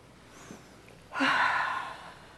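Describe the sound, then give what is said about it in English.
A single deep breath in during a hypnosis session: an airy, breathy rush lasting about a second that swells quickly and fades gradually, heard alone without any talk. “Okay, so just breathe in.”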